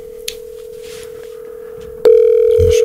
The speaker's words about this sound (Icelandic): Og það ringir og hann veit ekkert hver er að ringa í sig.